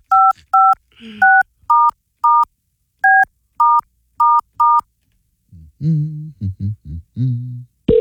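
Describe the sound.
Telephone keypad dialing: nine short, crisp dual-pitch tones in an uneven rhythm, followed by a voice after a brief pause.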